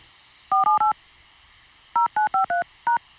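Telephone keypad tones as a call is dialed: eight crisp, evenly pitched beeps, three quick ones, a short pause, then five more, over a faint steady hum.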